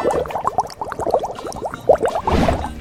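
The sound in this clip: Water splashes and sloshes steadily as a cloth is washed by hand in a laundry sink, with many small wet bursts that grow louder and fuller near the end.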